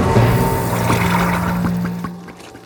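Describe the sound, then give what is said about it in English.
Water drains down a kitchen sink while the garbage disposal runs, a continuous rushing gurgle over a steady low motor hum that thins and fades in the last half second. “The friends slipped off the counter and cautiously peeked into the sink where the glittering purple mass was spinning and shrinking as more and more of it got sucked down the drain until there was nothing left.”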